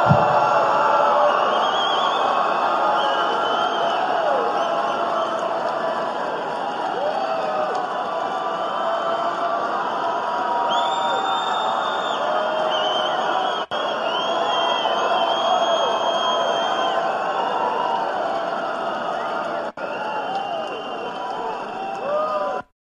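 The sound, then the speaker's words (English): Crowd cheering and applause at a conservative political conference after a line in a presidential speech: a loud, sustained roar with whoops and whistles that holds steady for over twenty seconds. “That was the biggest applause line of the night.”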